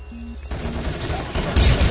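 Gunfire in a competitive video game round on a missile silo map, with a bomb planted and near detonation. Dense, crackling noise runs throughout and jumps louder for the last moments.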